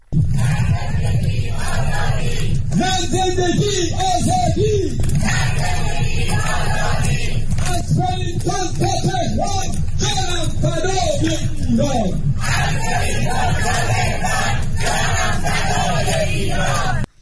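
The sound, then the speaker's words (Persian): Crowd of Iranians in Wellington, New Zealand, shouting slogans hand in hand along a long human chain in rainy weather; loud, continuous massed voices with rhythmic, chant-like yells throughout. “تعداد قابل توجهی از ایرانیان ساکن ولینگتون، پایتخت نیوزیلند، با وجود هوای بارانی دست در دست یکدیگر در صفی طولانی فریاد زدند”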